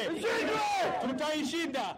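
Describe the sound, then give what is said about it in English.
Crowd chanting in unison at a rally held by Nairobi's Somali community in solidarity against terrorism, many loud overlapping voices sustained without a break. “But on Friday, Nairobi's Somali community rallied in a show of solidarity against terrorism. Crowd chanted, "We will defeat them,"”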